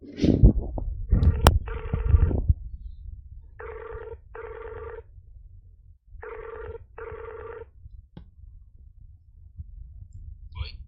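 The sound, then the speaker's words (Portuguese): An outgoing telephone call rings on the line in a repeating double-ring pattern, two clear pairs of steady buzzing tones separated by a short pause, after a burst of clattering handling noise at the start. “vou ligar mais uma vez agora.”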